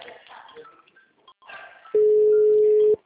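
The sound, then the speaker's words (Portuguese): The ringing tone of an outgoing telephone call, heard after a short stretch of muffled talk: one steady, loud tone lasting about a second, then cutting off. “Ah, agora tá chamando normal, ó. Olha o jeito que vem aí a ligação.”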